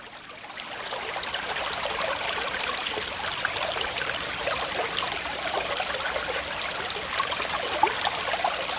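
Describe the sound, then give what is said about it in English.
Water trickles and pours in a continuous, even rush of fine splashing, steady and fairly soft from start to finish. “You know what that's the sound of. Water. That's right, ladies and gentlemen. H2O.”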